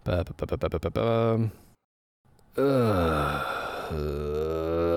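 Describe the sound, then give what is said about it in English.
Tabletop role-playing players groan together at a bad dice roll on a mystery investigation: quick talk and a short silence, then a long, drawn-out collective moan of several voices. “That groan was in regards to the 4 I just rolled on investigating mystery.”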